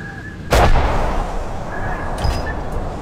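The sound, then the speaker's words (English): A single heavy gunshot from a ship's deck gun fired by its crew: one sharp, loud boom followed by a long, rumbling decay that lingers for a couple of seconds. “The captain signals the gun crew. They fire immediately.”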